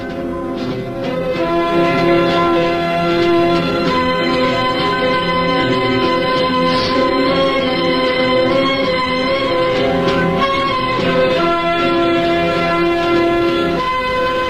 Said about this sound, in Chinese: 冬天的大雪越来越大，列车在雪地上飞驶而去，渐渐的，渐渐的